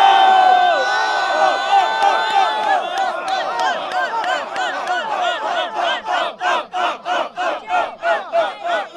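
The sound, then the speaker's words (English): A live audience shouts together in a loud sustained roar, which then settles into a steady rhythmic chant of regular pulses. “So you shout ups or you shout downs in 3, 2, 1, go.”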